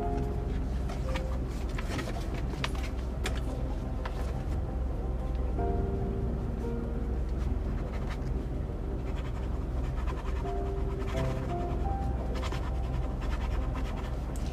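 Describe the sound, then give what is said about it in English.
Pen scratching across a notepad while writing, a steady run of continuous scratchy strokes over a constant tonal background. “Let me get the Bubble official notepad and write, jump through a wormhole.”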